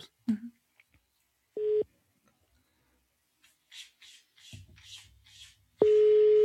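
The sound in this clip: A telephone tone sounds while a call is placed. A brief steady electronic beep comes early, faint rubbing and rustling follow, and then a longer, louder steady tone begins near the end.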